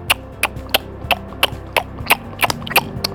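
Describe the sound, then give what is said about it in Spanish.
Tongue clicks made by a person imitating a slow horse's hooves: nine crisp, hollow clops at an even, unhurried pace, each sharp and fairly loud over a faint background hum. “Atentos al chasquido de la lengua. Zapito. Como un zapito. Y tú haces carreras también. Un caballito lento”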